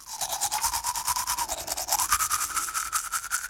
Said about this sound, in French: Le soir, avant de dormir, je me brosse les dents.